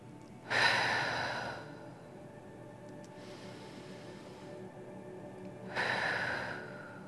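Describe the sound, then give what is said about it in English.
Deep breathing: two slow, airy breaths separated by a long stretch of near quiet, soft and without talk. “First, take a few deep breaths.”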